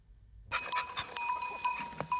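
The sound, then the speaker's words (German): A goat herd bleating while grazing the forest floor of southern French woods in Provence to clear fire fuel. Several short bleats overlap with a steady clinking of livestock bells. “Das ist keine normale Ziegenherde. Es ist quasi eine Einsatztruppe der Feuerwehr.”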